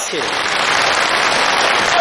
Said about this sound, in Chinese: 通过您的掌声跟笑声啊 啊， 听得出来， 听出什么来了？